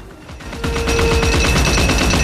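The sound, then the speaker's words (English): Gatling gun firing from a cockpit platform at a flying bicycle: a rapid, continuous rattle of shots in an even stream that gets louder and denser after a brief softer start. “Amazonia stands on the cockpit platform behind a Gatling gun. She fires on the bicycle, peppering the fabric on the wings with holes.”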